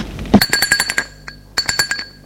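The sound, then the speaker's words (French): Doorbell ringing at a large three-storey 19th-century villa set in a park: rapid metallic ringing in two bursts, each made of many quick, bright strikes, separated by a short pause. “Et le lendemain, à 20h, il sonne chez les Hautebord,”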